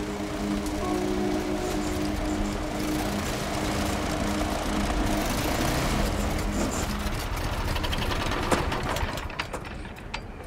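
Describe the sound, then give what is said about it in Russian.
Snow blower clearing snow in a yard, its small engine giving a steady, moderately loud droning hum with a rough mechanical texture throughout, alone without voices. “снегоочистительной машиной убирает снег во дворе”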